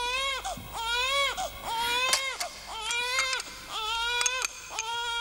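A baby, thought to be hungry, cries in a run of loud, wailing bursts. Each high, bleating cry rises and falls in pitch, with short catches of breath between them.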